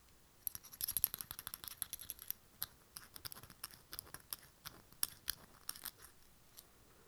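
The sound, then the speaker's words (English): Keys on a key ring rattle and jingle in an ASMR-style recording, with many small metallic clinks in an irregular stream. The sound is quiet and there is no talk. “Number two, this is called key ring.”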